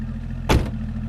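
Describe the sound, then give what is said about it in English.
A car's engine hums low and steady, broken by a single short, sharp burst of noise midway through the brief moment. “I'll bring the car”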